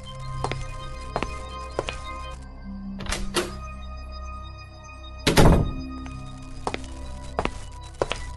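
A door opened after a knock at a family home: soft scattered footsteps and light taps, a quick pair of thuds, then one heavy, louder wooden thump, followed by more footfalls.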